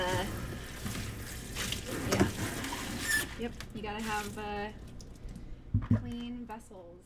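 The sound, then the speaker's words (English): Water rushing and splashing as flower buckets are washed at a flower farm, a broad running-water hiss for the first few seconds that then quiets while a woman talks over intermittent splashes. “But yes, bucket washing is a very, it is part of doing floristry and farm work. It's an essential part of it.”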